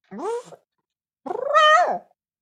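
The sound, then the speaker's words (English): A human voice imitates a fluffy cat with two meow-like cries. The first is short, and the second is a longer, wavering yowl that rises and then falls in pitch. “I can do good impression of cats as well, but not like the normal, like, that's easy to do. Right. But like the fluffy cats are”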